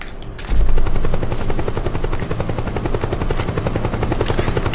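In a video game, a helicopter's rapid, rhythmic rotor chop plays loud and continuous, with bursts of machine-gun fire cutting in over it.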